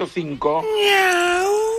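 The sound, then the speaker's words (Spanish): A cat meowing: a couple of short, broken calls lead into one long, drawn-out meow, loud and heard on its own. “¡Miau! El gato.”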